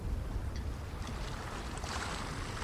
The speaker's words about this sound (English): As the boat eventually makes its way down the river, as night begins to fall